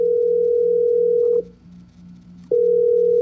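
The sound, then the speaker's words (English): A telephone dial tone: a steady, loud, mid-pitched hum that cuts out for about a second partway through, then resumes unchanged at the same pitch and level. “I want you to listen to the dial tone again, and I want you to try and describe to me what is actually happening sound-wise.”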